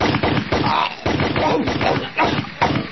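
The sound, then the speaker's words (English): Gunfire sound effects as a character is shot dead in a comedy sketch: a dense string of sharp cracking shots in quick, uneven bursts, loud throughout. “but this time I'm dying from gunshots!”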